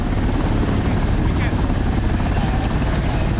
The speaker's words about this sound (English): The Nevilles and their puppy Sam head for the chopper. The soldier, Mike, gets in the chopper.